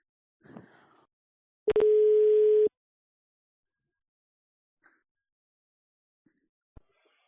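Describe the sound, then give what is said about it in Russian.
A telephone call tone on a busy line: one loud, steady mid-pitched beep lasting about a second, preceded by a brief vocal sound and followed by near silence with a few faint clicks. “Ладно, сейчас я ему еще раз наберу.”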